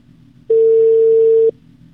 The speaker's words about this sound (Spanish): Está ingresando la llamada.